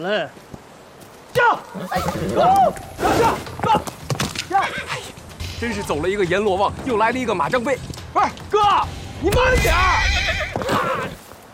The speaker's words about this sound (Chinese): 这牵马跟骑马就是不一样，骑在马上面。